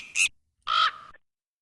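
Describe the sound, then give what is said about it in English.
A pet crow gives two harsh, loud caws alone, a short one followed by a longer, hoarser one that tails off, with a brief silence between them. “I have a crow.”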